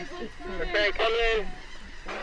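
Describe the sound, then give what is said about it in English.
Gulls and shorebirds calling on a beach at Cape May, New Jersey, with sanderlings and laughing gulls crowding the shoreline while feeding on horseshoe crab eggs. A few harsh, honking calls with clear tonal harmonics overlap one another in quick succession. “sanderlings are fighting for space with local laughing gulls on the shore of North Reeds Beach in Cape May, New Jersey”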